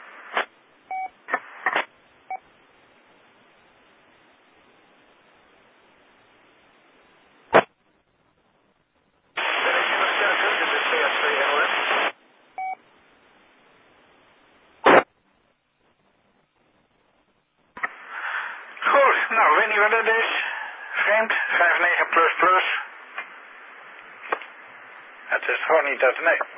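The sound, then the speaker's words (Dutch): Static hiss from an amateur radio receiver during a ham net, coming in loud bursts of harsh noise between short clicks and quiet gaps, with brief beeps and garbled voices breaking through the crackle. “Nou, ik hoor geen signaal en ik heb wel de metermijnen in de hoek staan, jongens. Dat is wel erg bijzonder. Lijkt wel op een mooie statische lading.”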